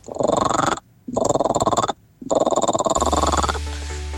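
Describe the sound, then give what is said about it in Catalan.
A nine-year-old imitates a frog croak with the voice: three long, raspy, rapidly pulsing croaks separated by brief pauses, loud, ending with a low steady hum. “Granota, eh? Soroll d'una granota.”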